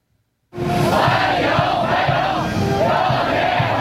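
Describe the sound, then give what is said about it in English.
Large crowd of Chinese teenagers chanting a welcome in unison while waving Chinese and American flags, greeting a US president arriving in Beijing. A loud, steady roar of many voices begins abruptly after a moment of near silence and continues without a break. “And that's the sound of Chinese teenagers chanting welcome, waving Chinese and American flags in unison, greeting President Trump on his arrival in Beijing”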